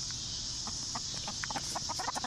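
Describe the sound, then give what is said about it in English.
Chickens clucking in an urban garden: many short, clipped clucks in an irregular rhythm over a steady hiss. “Well, chickens are perfect for an urban farm or an urban garden.”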